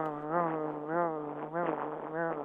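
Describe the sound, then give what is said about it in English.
A cicada heard in the evening drones as a steady, buzzing whine that swells and fades in a few pulsing waves, alone without any voices. “Yeah, that's a cicada.”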